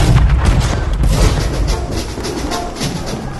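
Cannon fire rolls out as a heavy, loud boom with a broad rumbling wash that carries on and fades slightly over a few seconds.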